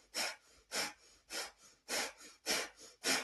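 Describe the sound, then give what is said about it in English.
Rhythmic breathing in a breathwork exercise: six loud, evenly spaced breaths follow one another at a quick, steady pace. Each is a forceful, airy rush that rises and falls, with no voices. “The breath is taking you deeper into the ground.”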